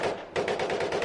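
Machine gun fire, presented as an Iraqi insurrection: rapid, loud, continuous bursts rattling for about a second with no voices.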